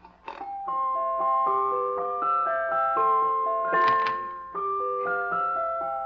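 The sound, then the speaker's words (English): A jack-in-the-box toy plays its tune as a tinkling, bell-like mechanical melody of bright, evenly stepped notes. It runs steadily throughout, with a brief clattering flurry partway through. “it's a sort of a jack-in-the-box. Oh. Here, listen to this.”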